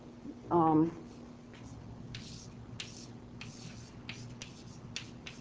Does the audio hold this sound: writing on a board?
yes